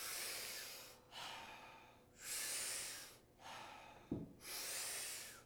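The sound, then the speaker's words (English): Powerful rhythmic breaths drawn in through the mouth, each followed by a soft exhale. The cycle is steady, with several full breath surges separated by short pauses, and no voices. “So what we're going to be doing is taking about 40 powerful breaths into the body through the mouth. And then we're going to do a soft exhale. We're going to do it rhythmically. We're going to do it together, and it'll sound like this.”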